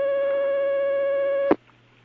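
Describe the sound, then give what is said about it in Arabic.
A telephone ringing with an incoming call: a steady, bright tonal ring held for about a second and a half, ending abruptly in a sharp click before near silence. “معنا مكالمة الآن، هناك مكالمة على الخط، تفضل.”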